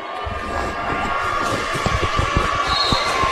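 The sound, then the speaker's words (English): A basketball bounced on the court before a free throw in a game: several dull, spaced thumps over a low crowd murmur and a steady hum. “First free throw from Wyatt Watley.”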